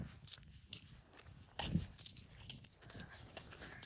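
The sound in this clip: Footsteps of a person walking home, faint irregular treads with one heavier thump partway through.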